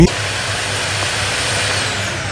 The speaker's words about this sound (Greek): Η σκούπα χάλασε.